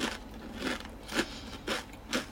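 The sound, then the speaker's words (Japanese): Crunchy, thin salad-flavoured rice crackers are being chewed, with faint crisp crunches recurring at an even, unhurried pace of roughly two per second. “ちょっと疲れ果ててしまって、ちょっと、お菓子食べてます。”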